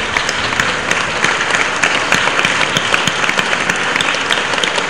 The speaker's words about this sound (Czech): Já ještě zatleskáme.